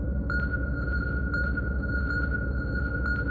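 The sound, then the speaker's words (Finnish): Echo sounder sonar beeping: four short, high, clear pings at slightly uneven intervals, each with a brief ringing tail, over a constant low rumbling hum. “mutta aina silloin kaikuluotain alkaa piipata tiheämmin”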